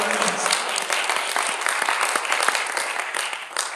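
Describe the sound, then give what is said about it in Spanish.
A crowd applauds during a worship service, a dense, steady clatter of many hands clapping at once that holds at an even level for nearly four seconds. “Un aplauso, dáselo al Señor.”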